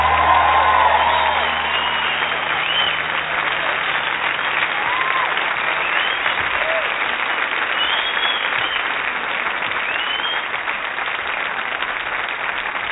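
Applause and cheering from a concert crowd roll on continuously, a dense, steady wash of clapping with scattered whoops and whistles that stays loud throughout and eases slightly toward the end.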